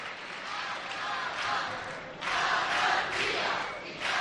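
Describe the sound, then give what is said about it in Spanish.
A carnival audience chants phrases and refrains during a quartet competition, with rhythmic surges of massed voices that grow louder and more insistent in the second half. “El público, pues, recordando frases, estribillos de los últimos años.”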